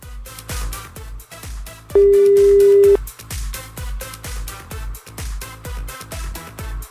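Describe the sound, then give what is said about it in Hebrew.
A single steady telephone tone sounds for about one second after a call-in line disconnects, laid over loud, rhythmic Hasidic pop music that plays throughout. “הלו, הלו, די, ניתק לנו.”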